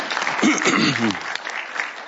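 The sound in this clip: Applause from a church audience welcoming a visiting guest, steady clapping from many hands with a voice briefly heard over it.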